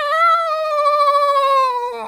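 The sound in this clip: A single long, drawn-out cat meow, loud and tonal, holding a steady pitch for about two seconds before dropping off at the end, heard alone.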